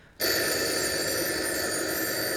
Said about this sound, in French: Vite, téléphonons maintenant au capitaine.